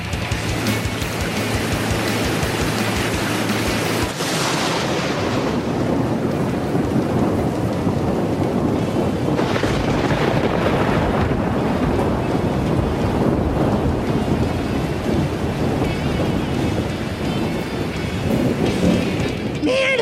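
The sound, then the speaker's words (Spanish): Fire sprinklers spray water in a loud, steady rushing hiss like heavy rain, swelling briefly a few times and running continuously throughout. “¿Pero qué coño ha pasado? ¡Se han activado los aspersores antiincendios!”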